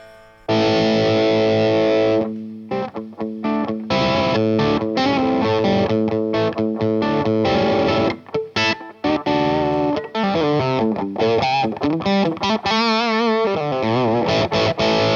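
A heavily distorted electric guitar plays through an effects pedal while its knobs are swept across their range. Loud sustained chords and notes come in chopped bursts, and the notes turn into wobbling, warbling pitch sweeps near the end.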